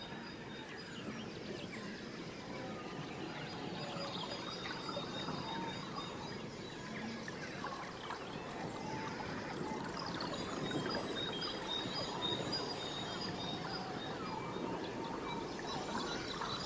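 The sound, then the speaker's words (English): Faint birdsong by reed beds on the Suffolk coast near Snape Maltings: scattered high chirps over a steady watery, breezy wash, quiet throughout and without voices. “Pebbles and reed beds, birdsong and bleach skies. We're off to Snape Maltings on the Suffolk coast”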